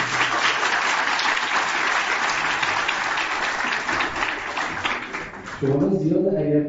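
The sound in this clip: An audience claps in a dense, sustained wash of applause that holds evenly for several seconds. Near the end the clapping drops away and a voice begins speaking.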